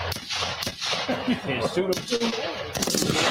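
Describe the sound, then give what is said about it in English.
Gunshot sound effects played during a comedy talk show's ten-year anniversary celebration, a few sharp bangs scattered beneath ongoing talking. “Okay, let's shoot somebody too.”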